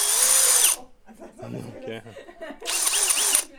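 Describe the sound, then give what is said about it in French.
A power drill bores out a sample through a 25 cm stainless steel sampling tool mounted on it, giving two loud, dense whirring bursts at the start and end with voices talking in the quieter gap between. “c'est monté sur un outil qui est assez courant, qui est une perceuse.”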